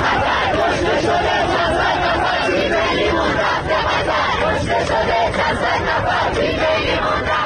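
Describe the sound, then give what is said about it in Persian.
Iranian fans at Iran's World Cup match in Qatar chant anti-Khamenei slogans as a loud crowd, their shouted voices merging into a continuous, forceful roar across the whole clip. “و ایرانیانی که در قطر حضور دارند و همزمان با بازی تیم ایران شعارهای مرگ بر خامنه‌ای سر دادند.”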